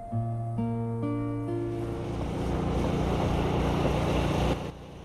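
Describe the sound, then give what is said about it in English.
A John Deere riding mower's engine putters along the gravelled hard shoulder of a road under hot sun, a steady low rumble with gritty noise that grows slightly louder before cutting off near the end. “Under a blistering sun, the John Deere mower putters along the gravelled hard shoulder of a carriageway road.”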